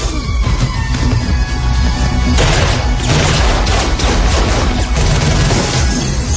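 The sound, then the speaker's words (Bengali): Heavy gunfire: many gunshots blend into a dense, loud barrage of crackling bursts that thickens partway through and keeps going to the end. “একটা কিংবা দুটো নয়, অনেকগুলো গুলির শব্দে কান ফেটে যাওয়ার অবস্থা।”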